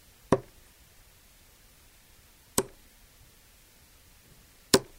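A plastic soft-tip dart strikes and sticks in a dartboard three times, each a short sharp knock standing alone in near silence and spaced evenly apart.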